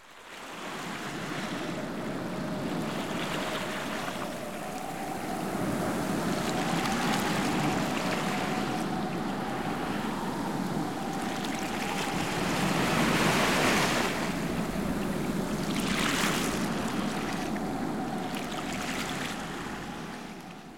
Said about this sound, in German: Vorsicht, der Wind ist heute sehr stark, hört er noch.